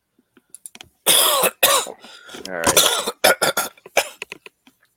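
A sick man with earaches coughs in a harsh fit of several rough, loud bursts with some throaty, voiced rasps between them, then trails off into smaller coughs and throat clearing.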